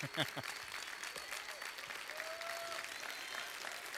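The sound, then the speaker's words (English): A church audience breaks into applause to welcome their campus pastor: sustained clapping from many hands with scattered cheers and voices mixed in, starting with a brief louder burst and then holding steady. “If you right now would please welcome and give a round of applause for your campus pastor, the greatest pastor on the planet”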